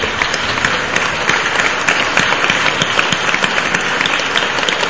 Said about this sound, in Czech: Já ještě zatleskáme.